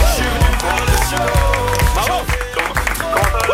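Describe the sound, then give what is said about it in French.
Studio audience applause on a French morning radio game show, a short burst of quick, dense clapping with rhythmic thumps underneath, loud and steady throughout. “Applaudissements pour Valentin.”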